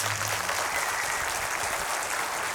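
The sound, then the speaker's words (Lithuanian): Audience applause welcoming the national police commissioner as a guest, dense, steady clapping from many hands that holds at an even, fairly loud level throughout without a break. “Pasitikime plojimais.”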